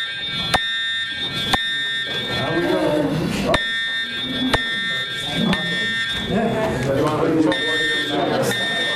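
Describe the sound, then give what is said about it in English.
A fire alarm goes off during a meeting. It is a continuous, piercing high buzz with sharp pulses at a steady rate of about one per second, and people keep talking beneath it. “We just had a fire alarm.”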